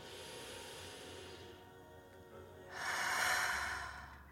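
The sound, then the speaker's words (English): One deep human breath, a soft airy rush that swells and then fades, heard alone after a quiet stretch. “For now, I invite you to take one last breath with me.”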